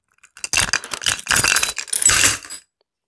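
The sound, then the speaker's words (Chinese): A metal buckle clinks and jangles as a leather belt is pulled out of trousers and tossed aside. Several short bursts of bright rattling run over about two seconds and then stop. “哎呀，我都说了不要穿这种系皮带裤子，真的很麻烦。我抽出来扔掉了。”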